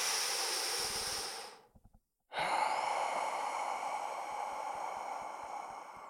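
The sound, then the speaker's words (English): Slow, controlled breathing during a relaxation exercise, with the breath out held about twice as long as the breath in. A long soft airy breath is followed by a brief silent pause, then a longer steady rushing exhale. “So in for 2 or 4 seconds and then out for 4 or 8 seconds. Just double the time out as you do in.”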